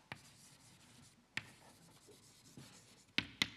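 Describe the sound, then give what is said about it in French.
Faint scratching and tapping of writing on a board during a lecture. A few sharp taps stand out, and several cluster together at the end. “Ça va quand j'écris ici, on voit”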